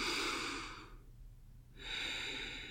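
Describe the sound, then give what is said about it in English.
Deep breaths drawn in through the nose during a short guided breathing exercise: two long, airy rushes of breath with a brief quiet gap between them, soft and steady, with no talking. “I want you to take 4 deep, deep breaths in through your nose.”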